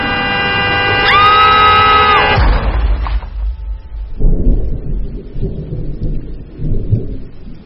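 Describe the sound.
A car crashes into something after a loud blaring horn, whose steady harmonic blast is followed by a heavy, rumbling, noisy impact and a rough, crackling aftermath.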